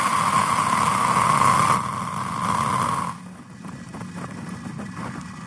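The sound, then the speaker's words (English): A rocket carrying Starlink satellites ignites and lifts off from Kennedy Space Center with a steady, broad, rumbling roar. A high tone above it fades early, and the roar then settles into a quieter, continuous rumble. “launching a 53 Starlink Internet satellite from the Kennedy Space Center. 3, 2, 1, 0. Ignition. and liftoff.”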